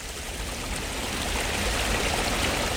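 Water runs through a constructed garden stream about 300 metres long, fed by a series of pools in a swampside garden. It makes a continuous, even rushing trickle with no separate events.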